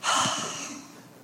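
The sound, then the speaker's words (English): A single sharp breath, loud at its onset and trailing off over about a second as an airy, breathy rush, heard alone without talk. “Y'all heard that breath?”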